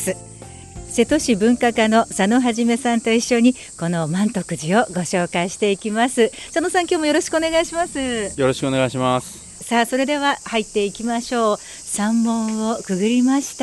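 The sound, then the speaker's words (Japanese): Cicadas sing as a thin, steady buzz beneath continuous talk from several people at Mantokuji temple in Seto, a Buddhist temple dating from the Kamakura period. “風があってセミの鳴き声も聞こえてますでしょうかね。”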